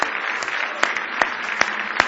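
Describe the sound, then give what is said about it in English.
Congregation clapping hands in praise during a church service, a continuous patter of applause with louder claps falling at a regular, rhythmic pace. “Now give the Lord another big hand clap of praise.”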